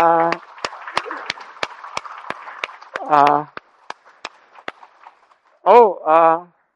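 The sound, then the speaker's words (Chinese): Sparse clapping at a church gathering, crisp single claps in a steady rhythm, interrupted by loud voices. “好，俾掌声余弟兄”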